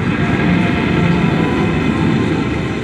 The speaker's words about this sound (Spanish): Partió el avión.